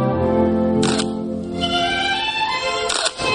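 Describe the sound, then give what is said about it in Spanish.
Camera shutter clicks during a lingerie photo shoot, with a photographer snapping a woman, likely on a single-lens reflex camera: two crisp shutter releases, each a quick double snap, set apart over a steady harmonic music bed. “un joven fotógrafo toma instantáneas de una bella mujer morena en una sesión de fotos de lencería.”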